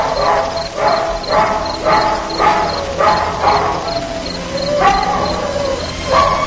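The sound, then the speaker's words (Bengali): Fierce dog barking drifts from a distant valley: many sharp, harmonic bursts in a steady repeating rhythm, some with a whining, yelping edge. “হঠাৎ দূরে উপত্যকার দিক থেকে ভেসে এলো এক কুকুরের হিংস্র চিৎকার।”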